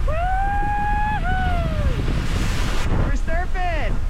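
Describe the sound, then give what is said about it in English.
Wind and ocean waves around a solo rowing boat at sea on a California-to-Hawaii crossing, against a headwind of about 10 knots; a constant, loud roar of wind noise and surf fills the whole clip. “Yeah, I've been rowing against a headwind, about 10 knots of wind, and some pretty strong southerly current.”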